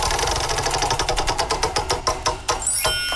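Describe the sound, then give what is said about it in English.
A game wheel spinning: rapid ratchet clicks that gradually space out as it slows and stops, followed by a brief bright chime. “Let's spin the wheel and find out what game we are playing this morning.”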